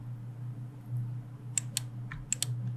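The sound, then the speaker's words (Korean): A Ctrl key being held and a computer mouse clicking, heard as a few sharp clicks in two quick pairs over a steady low hum. “제가 여기다가 컨트롤 누르고 여러 개 점을 찾아서 눌러 보도록 할게요.”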